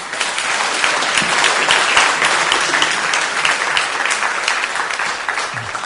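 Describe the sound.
An audience applauds a poet at a literary evening in a concert hall, marking his twentieth appearance there. The clapping is full and sustained, a thick, even wash of many hands from start to end.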